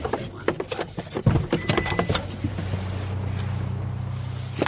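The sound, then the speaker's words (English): People climbing out of a car at a city tree-planting outing: a few clunks and rattles mix with jangling keys, then a steady low hum settles in and continues to the end. “Okay, we're exiting the vehicle.”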